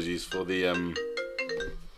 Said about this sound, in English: Oh no, I'm getting a phone call.